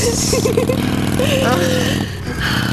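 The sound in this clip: Motorcycle engine revving during a ride, a steady, loud mid-pitched drone with busy harmonics that briefly dips around two seconds in before picking up again.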